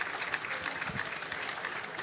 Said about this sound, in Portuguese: Aplaudem os adeptos esta exibição do Santa Clara.